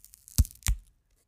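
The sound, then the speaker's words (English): A screen protector peels off a phone in two short, crackling tearing bursts separated by a brief pause. The sound is sharp and dry, followed by silence. “I'm going to hold this up to the microphone so you can hear it peeling away”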